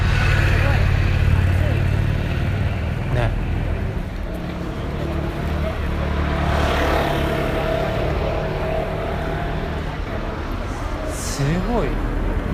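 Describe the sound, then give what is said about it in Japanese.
Traffic flows along a busy city street in Shibuya, where a steady, rumbling wash of car noise is broken by a few louder passing whooshes of vehicles going by. “すごい車通るね、これね。”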